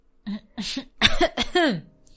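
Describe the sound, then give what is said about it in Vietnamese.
Throat clearing: a few short, rough bursts, the last ones voiced like an "ahem", heard alone without other talk. “đằng hắng lên tiếng”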